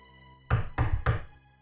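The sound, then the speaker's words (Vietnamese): Knocking on the door of a large house: a few firm, dull knocks in a quick, even rhythm over a faint steady hum. “Ai đây? Ai gõ cửa đây?”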